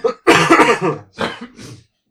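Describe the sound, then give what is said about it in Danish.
Coughing from a summer allergy: one long, loud, harsh burst, then two shorter, rougher coughs close together, with no talk over them. “Jeg hoster det.”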